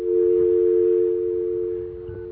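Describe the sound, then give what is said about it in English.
A telephone dial tone hums as one steady, continuous, fairly loud tone for about two seconds, with no other sounds. “Can we get a dial tone here? See if we can get one of our magical dial tones. There we go.”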